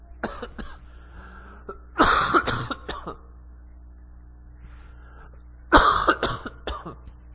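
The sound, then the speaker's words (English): A person coughs in a few harsh, rasping bursts, grouped in two clusters with a quiet pause between them, over a low steady hum. “I knew this cough was going to act up.”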